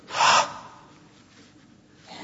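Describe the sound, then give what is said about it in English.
A single breathy exhale onto eyeglass lenses to fog them, a short airy puff that peaks early and then fades into a faint hiss. “Take off your glasses and do this. Put them to your mouth and breathe on them.”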